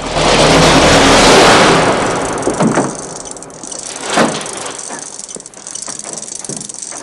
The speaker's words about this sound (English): Kersey steps over to a chain. He pulls it and a shutter slams down, blocking off the exit.